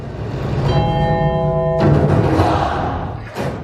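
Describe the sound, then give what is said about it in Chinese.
A bell chime edited into a piece of music as a cue for a children's performance, a sustained ringing tone over the music that cuts off abruptly partway through while the music continues. “钟声是我编进去的，嗯，给孩子一个提醒”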